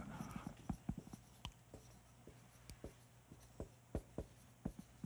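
Writing on a board: a string of short, scratchy strokes in an irregular rhythm, some sharper and louder than others, fairly faint, with no talking.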